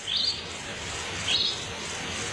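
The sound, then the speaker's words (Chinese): A small bird chirps in the desert: two short, high chirps spaced about a second apart, fairly faint over a steady background hiss. “小鸟， 小点声，别惊扰了它。”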